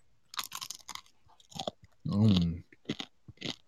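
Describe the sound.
Crunchy food being chewed, with a series of crisp, irregular crunches and bites and a short voiced sound in the middle.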